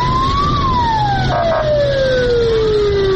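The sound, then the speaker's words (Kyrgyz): Siren of a fire engine driving through streets to disinfect quarantined villages, a loud wail that rises briefly and then glides steadily downward in pitch, heard alone. “Ага өрт өчүрүү унаалары тартылып, көчөлөрдү кыдырып чыгышты.”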